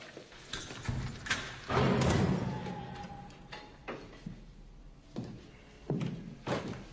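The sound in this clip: A door is opened with a series of faint thuds and clunks, then a broader rattling knock and softer scraping movement.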